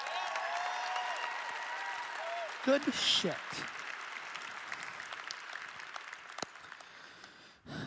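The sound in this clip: Sustained audience applause at the INBOUND 2016 keynote, with steady dense clapping, a few early cheers and a brief spoken remark midway, tapering off at the end.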